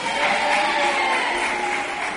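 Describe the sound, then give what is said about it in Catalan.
Schoolchildren from several schools applaud their classmates at a school event, a soft, continuous wash of clapping that stays even and fairly muted throughout. “Gràcies pels aplaudiments i els ànims dels companys.”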